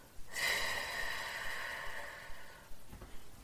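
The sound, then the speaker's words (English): A slow exhale after a breathing exercise: one long, steady rush of breath that lasts over two seconds, then fades into near silence. “Hold the air in your lungs for 4, 3, 2, 1, and exhale.”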